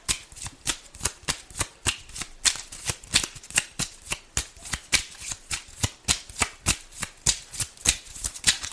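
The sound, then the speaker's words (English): Oracle cards being shuffled, many quick crisp riffles in a steady loud rhythm that runs throughout. “All right, may I have some oracle cards, please?”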